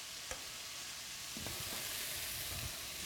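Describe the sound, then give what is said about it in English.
Garlic sizzles in olive oil as it goes into the pan for a sausage and crab jambalaya, a steady bright frying hiss broken by a few soft stirring clicks, with no talk. “now all the garlic will go in”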